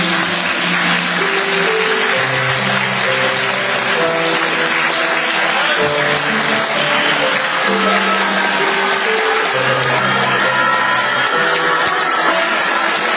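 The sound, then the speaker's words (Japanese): An audience applauds as the two lead actors come on stage for a talk show, with steady, dense clapping sustained throughout over music. “どうぞ大きな拍手をお願いします”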